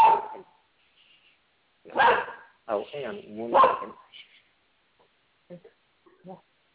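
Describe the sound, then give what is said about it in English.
An excited dog barking in the background, a few sharp barks in short bursts, followed by faint, softer yips. “That's my dog in the background. He's excited by what we're talking about.”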